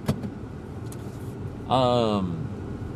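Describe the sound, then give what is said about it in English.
A car drives up: a steady low hum swells into a louder engine sound with a whining tone in the second half. “Oh, my buddy is driving up.”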